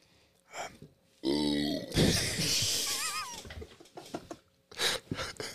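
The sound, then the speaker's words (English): A loud, drawn-out burp rumbles for about two seconds, surrounded by brief, quieter mouth and voice sounds. “That was a legitimate burp.”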